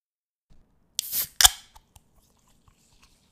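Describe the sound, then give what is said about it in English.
A can of grapefruit chu-hi, a Japanese canned cocktail, cracks open with a sharp metallic click and a short fizzing hiss. A second, louder snap follows, then a few faint small clicks. “That sound you hear is me cracking open a grapefruit Chew High, which is my beverage of choice for today's recording.”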